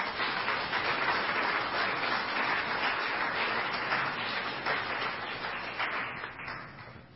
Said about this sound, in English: At this time, help me welcome the Honorable Mayor Paul Soglin.